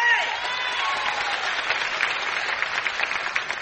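Enthusiastic audience applause at the Opry welcoming a country singer, a steady, full wash of clapping with a few cheers that keeps an even level throughout.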